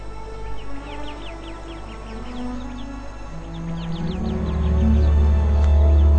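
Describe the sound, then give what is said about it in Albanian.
High, rapid chirping alarm calls from a sentinel bird warning of a viper, many short repeated notes in quick bursts, while a low rumbling noise swells in the second half. “Një nepërk. Zogu roje, jep me njëherë alarmin.”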